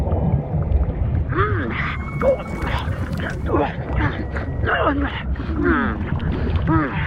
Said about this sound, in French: Vous entendez ce bruit? On dirait le son d'un moteur d'un gros bateau.